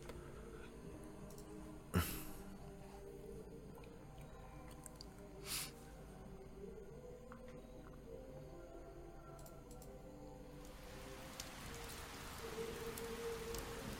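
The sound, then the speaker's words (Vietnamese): Rain pours onto old, worn roof tiles and splashes water continuously. A faint, steady patter with scattered drop-like ticks runs throughout, with a couple of brief louder knocks. No voices are heard. “Mưa to trút xuống đánh lên mái ngói cũ nát khiến bọt nước bắn ra liên tục.”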